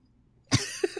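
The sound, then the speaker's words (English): One sharp, loud cough breaks a near-silent background, followed by two short, fainter throat-clearing sounds in quick succession. “And I have something in my throat.”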